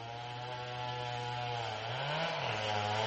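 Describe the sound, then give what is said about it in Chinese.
A chainsaw felling trees in a forest gives a steady, buzzing engine drone with a strong low hum, its pitch briefly rising and then dropping back near the end, heard alone. “Richard 在森林里听到伐木的链锯声音”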